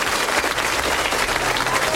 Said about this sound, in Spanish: Este aplauso es para usted, nuestro rapsoda de cabecera.